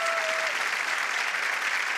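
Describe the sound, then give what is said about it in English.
A round of applause from a game show studio audience: dense, even clapping for two seconds, with a brief steady tone at the start. “Give Dan a round of applause, everyone.”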